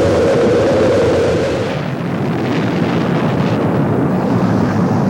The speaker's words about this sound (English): We've gone for main engine start. We have main engine start.